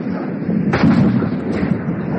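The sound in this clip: A gunshot is fired as a warning over a fleeing man's head: one sharp, loud crack rings out over steady background noise and trails into a rumbling decay.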